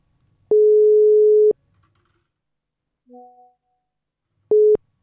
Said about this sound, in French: Donc on essaie d'appeler notre correspondante.